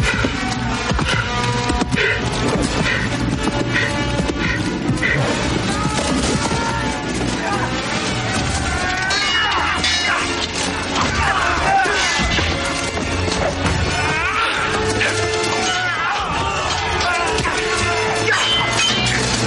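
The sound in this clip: Sword clashes and crashes from a medieval battle, a knight fighting on foot against many enemies, set in a dense, continuous, loud mix with a full musical score running throughout.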